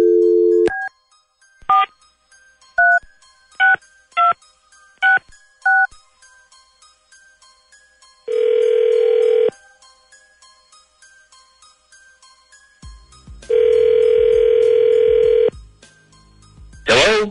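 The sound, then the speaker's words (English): A telephone being dialed: a brief dial tone, then several short touch-tone beeps in an uneven rhythm, followed by two long, steady ringing tones separated by a pause, with a final short burst at the end. “Dialing at random.”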